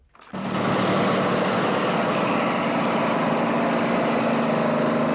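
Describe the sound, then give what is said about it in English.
Loud, steady engine roar of a bathroom-fixtures delivery truck driving along a highway. It swells in after a brief quiet moment, then holds one constant, unbroken drone to the end. “The Acme bathroom fixtures truck roars along the highway.”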